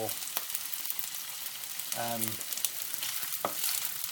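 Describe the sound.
Balls of food, a bit flat and not quite round, sizzle steadily in a frying pan as they are moved around. A few scraping, clattering knocks break through the constant hiss.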